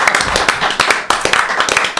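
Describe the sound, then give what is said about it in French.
Audience applause at a French TV talk show after a Claude François song performance: brisk, dense clapping that stays loud and steady for the whole two seconds. “On peut applaudir Titi, bravo.”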